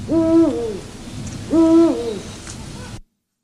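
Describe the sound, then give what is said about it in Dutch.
Two deep, resonant hoots from male Eurasian eagle-owls giving a territorial call, each a strong low note about a second and a half apart, alone with no talk around them. “Dat zijn mannen oehoes. Ja, die klinkt ook wel iets steviger eigenlijk.”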